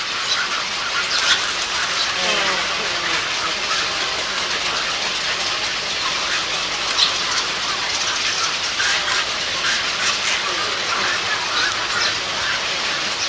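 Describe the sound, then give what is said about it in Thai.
Newly hatched Asian openbill stork chicks beg for food in a dense, continuous chorus of high, raspy calls that holds steady and fairly loud throughout. “นกปากห่างแรกเกิดมีขนอุยสีขาวบนหนังสีดำและอ้าปากร้องขออาหารอยู่ตลอดเวลา”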